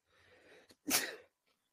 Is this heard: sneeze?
yes

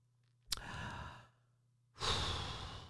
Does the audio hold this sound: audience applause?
no

